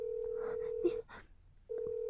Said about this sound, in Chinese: 你怎么可以给他打电话？